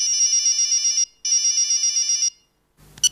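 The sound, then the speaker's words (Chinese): A mobile phone ringing: two long bursts of a shrill, rapidly pulsing electronic ringtone, separated by a short pause, loud and with no voices. “手机又跟炸弹似的响”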